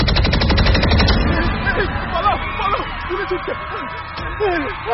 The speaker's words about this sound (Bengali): একটা শুটারের একজন গার্ড জনতার ভিড় লক্ষ্য করে একটা অটো পিস্তল ফায়ার করল।